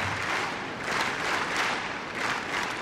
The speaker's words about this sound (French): Et le public qui met du rythme, vous l'entendez, qui encourage la Tchèque.